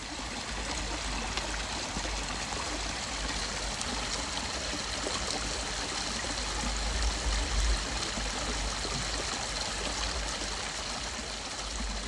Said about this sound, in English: The stream isn't insanely wide here, but it did make some great sounds.